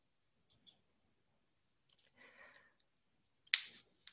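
Computer mouse clicking a link on a university course-listing web page: a few short, sharp clicks spaced apart, with a brief scratchy noise in between and one louder click near the end. No talk.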